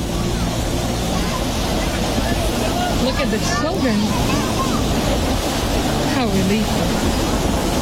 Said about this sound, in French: Donc je suis venu ici et je pensais trouver la mer vide. Mais regardez ça, les enfants dans l'eau.